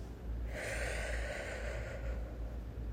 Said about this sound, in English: So let's try it again. Deep breath